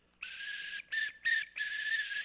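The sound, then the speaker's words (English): A whistle blown in four shrill, breathy blasts, a long one, two short ones, then another long held blast, each steady in pitch and fairly faint. “who was blowing on a whistle. Now, it's probably not like this whistle.”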